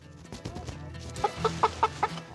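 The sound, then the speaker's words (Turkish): Chickens clucking while being caught by hand to be moved into a coop. Five short, evenly spaced clucks come in quick succession after a stretch of softer, scattered noise, and all of it is fairly faint. “Tavukları kümese taşımaya hazırız.”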